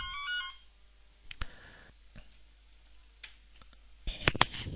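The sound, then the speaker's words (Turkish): A mobile phone ringtone chirps briefly as a bright, rapid tonal burst at the start, then stops. Scattered clicks and taps follow in a quiet background, with a cluster of sharper clicks near the end. “Telefon için ara vermek zorunda kaldım. İşte bazen bu tür aksilikler oluyor.”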